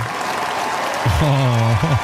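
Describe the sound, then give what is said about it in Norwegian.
Warm applause from a crowd of about 30,000 on the royal palace square greeting the royal family on the balcony; steady clapping in the first half, then a voice speaks over the continuing applause. “og ikke minst dronning Sonja til slutt, som fikk seg en ekstra applaus, varm applaus fra slottet”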